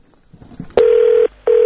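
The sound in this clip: A telephone ring tone sounds on a call-in phone line: two steady, evenly pitched electronic tone bursts separated by a short gap. The second burst runs to the end and cuts off, and a few faint low noises come before the first.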